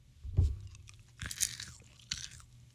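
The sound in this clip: Skittles candy is chewed with a few crisp, crunchy bites and soft mouth noises in between, faint and otherwise quiet.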